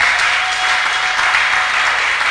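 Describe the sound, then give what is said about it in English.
A church audience claps during a sermon: continuous, dense clapping from many people, loud and unbroken throughout. “Oh, somebody clap for the Most High God.”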